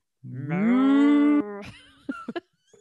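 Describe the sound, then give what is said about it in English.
A cow's moo from a spinner-and-string talking toy: one long, loud, rising moo that holds steady for about a second, then a few short, quieter sounds. “I'm going to get you that little toy with the spinner and the string. And the cow says,”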